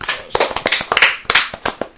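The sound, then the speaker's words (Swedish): Hand clapping applause: a quick run of many sharp, loud claps at an uneven pace, heard alone with no talking. “Ja, dagens applåd till Instagram-grunderna tycker jag.”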